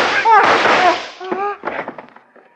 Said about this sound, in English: Carl. With your gun, you've surely killed us all.